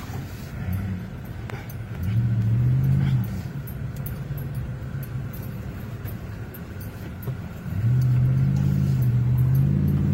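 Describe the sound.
A car engine rumbles and accelerates as the driver flees a wildfire through the Chalet Village cabins of Gatlinburg, the low drone swelling into two louder revving surges, one early and one near the end.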